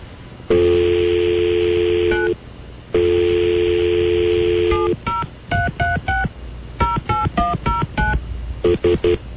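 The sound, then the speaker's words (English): Telephone keypad tones sound over a thin phone line: two long steady tones, then a rapid series of many short, clipped dialing beeps in uneven groups. “Dial 1. Otherwise, hang up. Please dial 1 now or hang up.”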